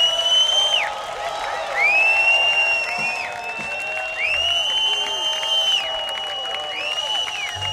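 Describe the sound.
Concert audience applause and cheering, a steady wash of clapping with whoops and shouts rising and falling throughout.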